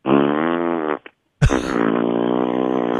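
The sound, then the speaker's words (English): A voice imitates a man farting at a urinal with two loud, buzzing raspberry blasts. The first lasts about a second, and the second runs longer after a brief pause. “so he's sitting there farting the whole time he's peeing”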